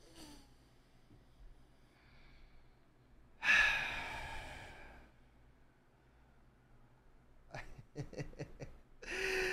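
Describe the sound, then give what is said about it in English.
A single deep breath taken on microphone, heard as an airy, breathy exhale that swells suddenly and then fades over about a second and a half against otherwise faint, quiet background sounds. “We're going to take a deep breath, a reset.”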